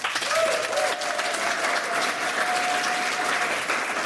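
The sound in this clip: Studio audience applause at an evening talk show: dense, steady clapping from a large crowd, loud and sustained for the whole clip with no talking.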